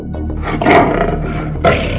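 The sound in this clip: A lion roars deeply and loudly, a rough continuous growl with two stronger swells that carries through the whole two seconds without any voices.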